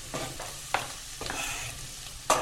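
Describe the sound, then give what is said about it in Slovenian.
Finely chopped onion sizzles in hot butter in a pan, a steady quiet crackling hiss broken by a few sharper stirring scrapes. “Maslo je že vroče, že lepo diši in sedaj bom pa dodal na drobno nasekljeno čebulo in to popražil”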